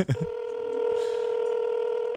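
Telephone tone as a call is placed: a brief click, then a steady, sustained electronic tone held for about two seconds, alone.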